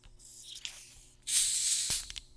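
A bottle of Mr. Pibb soda is cracked open and fizzes: a soft hiss at first, then a louder, sharper rush of escaping gas that tapers off, with a few small clicks near the end.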